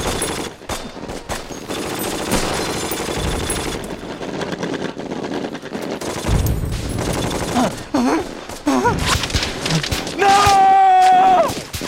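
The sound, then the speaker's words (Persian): Heavy gunfire crackles through a combat scene as troops lay down suppressing fire, with rapid bursts and scattered single shots layered into a loud, continuous barrage. Voices can be heard at moments late in the exchange. “من برتری آتش میخوام، گانیر میخکوبشون کن، به شلیک ادامه بدید.”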